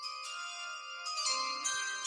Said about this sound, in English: All right, I'll answer the door later. That's actually my doorbell.